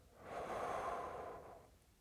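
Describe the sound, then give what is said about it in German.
A single slow, deep breath taken to calm down, soft and airy, swelling up and fading away over about two seconds at low volume, with no voices. “Durchatmen hilft. Tief Luft holen, ruhig werden und ausatmen.”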